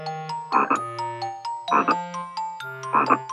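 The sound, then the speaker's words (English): Frogs croaking by a pond in three raspy, evenly spaced bursts over a backdrop of steady, sustained tones. “Be careful. Around the pond. I can hear frogs.”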